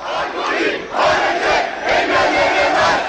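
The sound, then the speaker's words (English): Protest crowd in Istanbul demonstrating against alcohol laws, a loud roar of many voices shouting and chanting together, swelling in rhythmic surges without pause. “The sounds of protest in Istanbul.”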